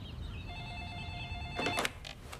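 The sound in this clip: A telephone rings with an incoming call: a steady electronic tone sounds for about a second, then gives way to a few short, sharp bursts of noise.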